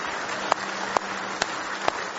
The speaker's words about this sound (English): Give him a big hand clap of praise if you love him this morning.